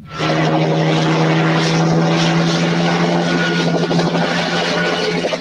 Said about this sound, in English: All right, Predator 1987, directed by John McTiernan, and we do have a trailer.